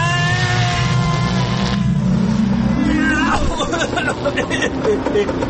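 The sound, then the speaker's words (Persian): A time machine starting up as a sound effect: a mechanical whirring drone climbs in pitch in steps, then breaks into a loud, busy, churning rumble. “این هفته این ماشین زمان رو روشن کنیم ببینیم کجا میبره ما رو، گذشته یا آینده.”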